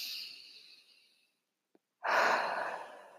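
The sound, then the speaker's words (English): A deep breath: a breathy rush of air that fades away, then after a short silence a second, louder breath rises and slowly tapers off, with no talking. “So take a deep breath.”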